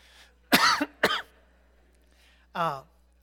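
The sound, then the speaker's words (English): Two sharp coughs from a person who has just drunk water, followed after a pause by a short voiced sound. “I think that water makes me cough.”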